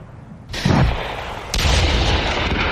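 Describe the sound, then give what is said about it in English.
Artillery and gunfire ring out during a military war exercise over a large valley: two sharp, heavy blasts a second apart, each followed by a sustained, loud rumbling roar, with no voices. “As you can hear, the war scenario is well underway. You can hear snipers, there's artillery”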